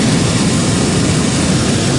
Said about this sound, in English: There's nothing but this propane burner above us. Correct. That just allows you to go up and down.